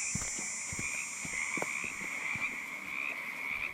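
Bullfrogs croaking in the evening on an island, a dense run of many short, low croaks and clicks over a steady high-pitched drone.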